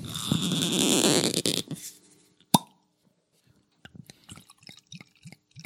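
Opening and pouring a La Trappe oak-aged quadrupel beer: a loud hissy rush, a single sharp snap, then a run of small gurgling glugs and drips of liquid.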